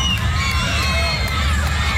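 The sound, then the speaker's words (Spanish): Crowd cheering and shouting at a welcome in San Juan Bautista, Misiones, a loud, dense wash of voices and whoops that holds steady throughout. “Griterío total en la zona de Misiones, San Juan Bautista.”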